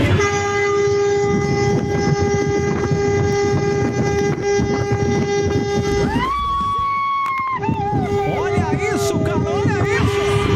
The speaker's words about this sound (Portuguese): Ele buzinou, mas com vontade, cara, na madrugada.